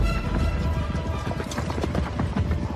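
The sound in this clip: Horse hooves clip-clop as an army rides out, a dense, unbroken clatter of many hoofbeats over a heavy, loud low rumble, steady throughout with no talk.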